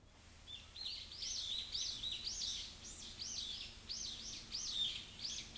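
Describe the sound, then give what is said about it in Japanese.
Birds sing from above over quiet shrine grounds at the foot of a mountain, with many short, bright, high chirping phrases repeating steadily over a soft, low background hush. “静かな境内で上から鳥の声がなんか降ってくるみたいでしたね。”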